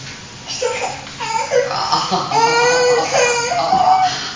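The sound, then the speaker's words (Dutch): A young child cries in wailing, sobbing bursts, with several rising and falling cries that grow stronger toward the end. “Ja, dan moest je huilen.”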